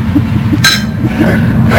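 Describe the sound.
Glasses clink together in a toast: one sharp, bright strike that rings briefly before fading, over a low, steady background rumble.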